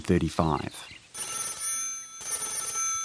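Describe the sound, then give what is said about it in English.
An office telephone rings with an incoming call in 1935, a bright, bell-like ring in two bursts with a short gap between them, following a brief moment of talk. “There's a phone call to the office of Dr. John Dryden, an Auckland physician.”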